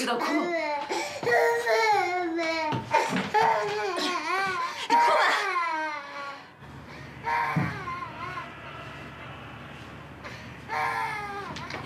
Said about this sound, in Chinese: 你就知道哭，你哭吧。哎，哭你就哭。